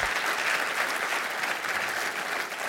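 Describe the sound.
A church audience claps to welcome one of its members, a dense, steady round of applause that stays loud from start to finish.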